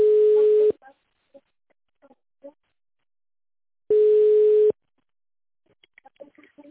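Telephone ringback tone on a call to a company line while waiting for an answer: two steady, mid-pitched beeps, each under a second long and about three seconds apart, with faint scattered clicks between them.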